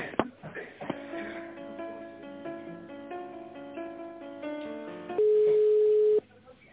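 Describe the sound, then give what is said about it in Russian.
Telephone tone while a call is transferred: a muffled, narrowband melodic line with stacked tones plays, then a single steady mid-pitched tone holds for about a second before cutting off. “Сейчас я вас соединю, секунду.”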